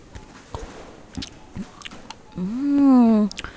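Someone chewing food, with a few soft, wet bites and squishes, followed by a longer voiced hum.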